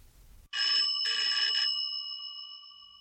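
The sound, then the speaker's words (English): An electric bell rings on a replica early wireless telegraphy receiver, a black box with the bell mounted on top. Two bursts of bright, metallic ringing are followed by a long tone that slowly fades, with no talk. “It's a replica of the receiver that Marconi used for the first public demonstration at Turnbull Hall in London. Marconi walked around with this black box with the bell on top,”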